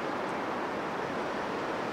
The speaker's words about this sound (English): and that is the sound of the waves. 80 years ago, the D-Day landings happened on this beach and many beaches nearby